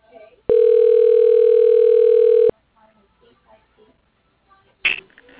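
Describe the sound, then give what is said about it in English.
A telephone tone from an office phone system dialing an extension: one steady, unbroken single-pitch tone lasting about two seconds, then faint low rustles and a short, bright burst near the end. “dialing David Arbeit. Extension 2621.”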